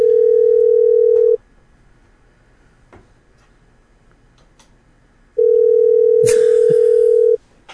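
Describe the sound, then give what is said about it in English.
Ringback tone of an outgoing telephone call: two long, steady mid-pitched tones separated by a gap of near silence, the second lasting longer than the first. “Oh, I hear a ring. Yes, we're calling Jason.”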